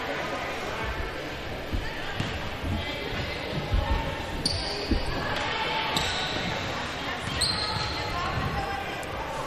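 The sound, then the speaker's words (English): A basketball dribbled a few times before a free throw in a women's game, crisp bounces spaced a second or two apart over crowd chatter and a commentator's voice. “Couple dribbles, ball on its way, and it kind of rolls off the right side of the rim.”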